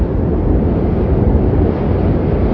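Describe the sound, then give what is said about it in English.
Wind blows in a steady, loud, rough rush that stays constant from start to finish, with no voices and no distinct events. “That was a sound of wind.”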